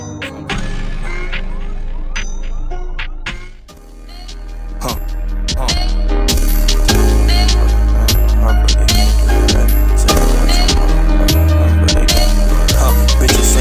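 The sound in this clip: A dense, bass-heavy rap-rock song plays with a deliberately distorted mix. Loud drums and full instrumentation dip briefly, then return louder with booming low end for the rest of the passage.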